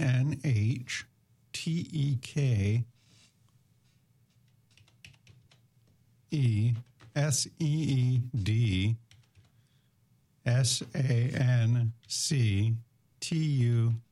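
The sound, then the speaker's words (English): Someone types a web address on a computer keyboard, with quick clusters of key clicks. A voice speaks in short bursts between quieter stretches of typing. “Or type in Harvest Dinner Fundraiser. Well, you can type in”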